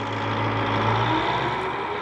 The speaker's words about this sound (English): National Guard Brigade Combat Team takes a Bradley for a spin in the sand for the TV cameras.